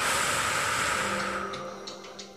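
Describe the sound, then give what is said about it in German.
A deep, long exhale during a guided breathing exercise, heard as a loud, breathy hiss that slowly fades away. There is no talking over it. “Das heißt, du atmest ein, Brustraum anheben, Bauchraum anheben, mit dem Ausatmen”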